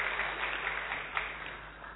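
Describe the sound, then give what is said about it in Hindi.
An audience at a spiritual talk claps. The applause is faint but steady, a soft continuous patter that tapers slightly at the end. “ताली तो बजाओ जरा, बाबा ने हमें lottery दी है,”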